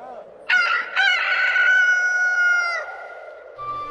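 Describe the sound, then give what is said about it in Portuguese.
A rooster crows once: a loud, bright cock-a-doodle-doo that starts with two stuttering bursts, then holds a long sustained harmonic note for about two seconds before breaking off. A fainter sound follows near the end. “o galo cantou pela segunda vez.”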